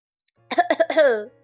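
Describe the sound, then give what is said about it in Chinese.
A voice imitates a man in sunglasses coughing: a few quick, sharp coughs run straight into a longer, drawn-out throat-clearing sound, loud against near silence. “这时，有谁咳了一声，回头一看，是一个戴着墨镜的叔叔。”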